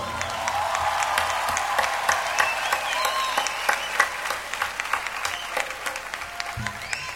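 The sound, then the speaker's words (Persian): An audience applauds a singer's performance with a dense, steady wash of many overlapping hand claps that holds an even level throughout. “بچه ها یک دست خیلی زیبا”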